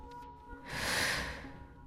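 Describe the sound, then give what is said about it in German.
A sleeping man lets out one hoarse, groaning breath, a rough rasp that swells and fades. It is faint and heard alone. “Er atmet noch mit heiserem Stöhnen.”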